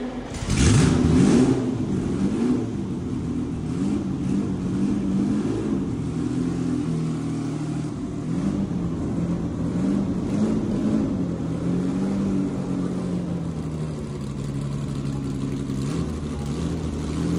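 Exhaust note of a classic Ferrari engine revving: a loud, rising burst at the start, then a continuous throaty drone whose pitch wavers up and down throughout.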